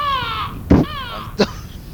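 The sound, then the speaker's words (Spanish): A crow caws in drawn-out, nasal, harmonic cries, two long calls broken by short bursts of noise, fairly loud and with no talking. “Muy lindo apareció el cuervo.”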